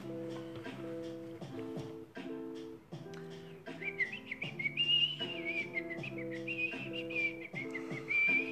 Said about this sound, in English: Whistle, whistle, whistle, whistle, whistle.